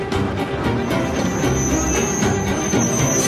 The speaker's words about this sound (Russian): Трамвай трогается.